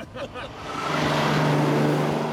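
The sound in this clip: A car engine runs after repair work, swelling from a brief lead-in into a steady, loud, low droning hum that holds to the end; a voice is briefly heard at the start.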